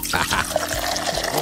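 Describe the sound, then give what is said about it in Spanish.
Liquid from a newly opened bottle of mineral water fizzes and pours in a steady, continuous wash lasting about a second and a half, with no clear breaks. “Ahora sí, destápate la primera agua mineral.”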